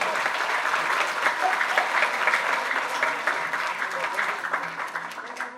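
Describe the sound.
An audience of pupils applauds after a game demonstration at a school event: dense, steady clapping throughout that eases off slightly toward the end.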